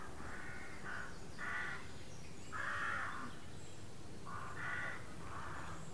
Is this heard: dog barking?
no